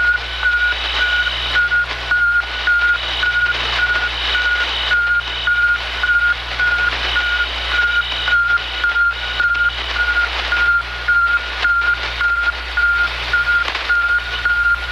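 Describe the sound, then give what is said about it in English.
Beeping radio signal of the first artificial Earth satellite, launched in the USSR: a long, regular series of short, high-pitched beeps over a steady low hum and hiss. “Now, you gotta wonder if that beeping sound is really the best that they could do.”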